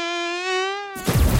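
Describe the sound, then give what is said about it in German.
A mosquito whines with a thin, steady, high buzz for about a second. A sudden burst of loud, rough noise cuts it off. “Speziell warme Sommertage mit gelegentlichen Regenschauern sind ideal für Mücken in Deutschland.”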